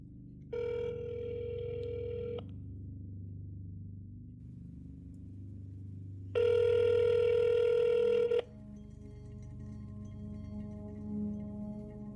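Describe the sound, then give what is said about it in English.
Telephone ringback tone after dialing a number printed on a poster: two long, steady electronic rings of about two seconds each, separated by a long pause, over a low background hum. “when they called the number on the poster, it actually worked. Once it was dialed, this is what you heard.”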